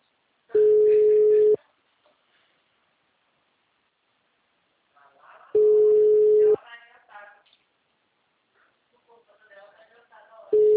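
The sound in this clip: Telephone ringback tone heard while placing a call: steady one-second beeps about five seconds apart, two complete and a third cut off at the end, with brief muffled talk between them.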